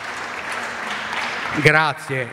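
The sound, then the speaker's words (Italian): Audience applause, a steady patter of clapping for about a second and a half that fades out as a voice begins speaking. “grazie, questo vostro applauso ci incoraggia e nello stesso tempo ci dà ulteriore forza.”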